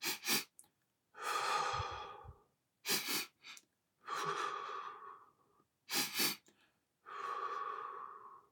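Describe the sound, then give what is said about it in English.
Two quick breaths in through the nose followed by one long breath out, a calming breathing exercise. The pattern repeats three times: two short sniffs, then a drawn-out, airy exhale, soft and unaccompanied. “you breathe with two quick breaths in through the nose. Naturally, we do this, and then a long breath out, usually through the mouth.”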